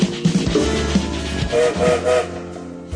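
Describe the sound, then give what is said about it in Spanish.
Train whistle sounding over the low rumble and clatter of a train starting to move, with a few harmonic whistle tones rising out of the steady mechanical noise midway through. “Como todos los días, el tren se pone en movimiento. Sonó el silbato y nos ponemos en marcha.”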